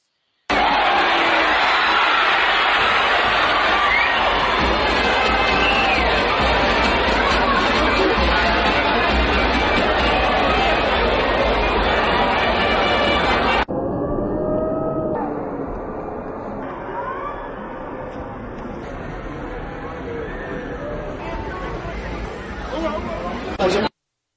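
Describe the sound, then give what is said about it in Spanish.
Bullring crowd noise during a goring at a Mexican bullfight, as a banderillero tries to place a pair of banderillas on the bull. A dense, loud wash of voices holds steady, then drops abruptly to a quieter, thinner murmur partway through. “Escuchamos el audio ambiente del momento de la cornada, así cuando al intentar poner este par de banderillas, el toro se le vence al Mojito,”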